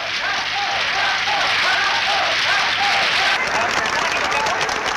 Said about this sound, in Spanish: Terminado su discurso y ante las insistentes e interminables aclamaciones de la multitud, el caudillo tuvo que asomarse al balcón por seis veces consecutivas.